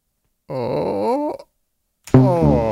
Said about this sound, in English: You know, you're groaning. You don't need to.